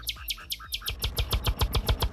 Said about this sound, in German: Die Nachtigall hat was drauf, du.